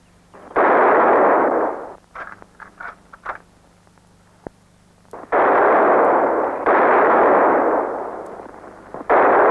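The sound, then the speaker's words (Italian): Gunfire at a shooting range: three long, loud bursts of roaring report, with a cluster of smaller, sharper cracks between the first two. “Devo proprio sparare. E cosa aspetti?”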